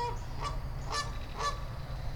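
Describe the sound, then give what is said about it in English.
Two angry geese circling Goose Island on a pond honk three times in a steady rhythm, fairly faint, harsh nasal calls over a low rumble. “Just some ducks bathing over there. And some angry geese. Two angry geese that are circling Goose Island.”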